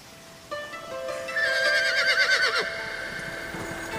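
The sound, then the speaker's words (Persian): A ridden horse at a gallop gives a loud, quavering whinny with a shrill middle that trails off downward, over a quieter steady background. “سیاوش سوار بر اسب میتازه.”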